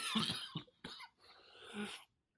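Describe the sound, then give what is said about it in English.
Dry, unproductive coughing: a few hard, hacking coughs in quick succession followed by a longer raspy, throat-clearing exhale, all fairly faint. “Pretty dry, unproductive cough there”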